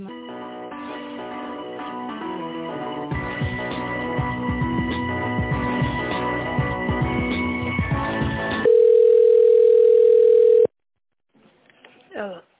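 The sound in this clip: A loud, steady single telephone tone plays for about two seconds while an office call is transferred to another extension. It follows a stretch of music on the line and then cuts to a brief silence.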